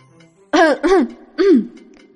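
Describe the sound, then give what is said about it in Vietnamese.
A man gives a dry cough and clears his throat in three short, rasping bursts, the last slightly longer, with no other sound around them. “Triệu Phổ ho khan một tiếng”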